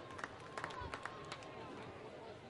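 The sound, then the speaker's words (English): Crowd noise in a baseball stadium during a night game, a steady low murmur of many voices with a few brief, slightly louder bursts near the start. “Crowd kind of fizzling out as far as their activity goes, but still a lot of people in their seats tonight.”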